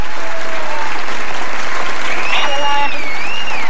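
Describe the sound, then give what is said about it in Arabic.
Loud, dense applause after a poem recitation, an unbroken wash of clapping that stays strong and even throughout. “هذا تصفيق من إذاعة أفق لك”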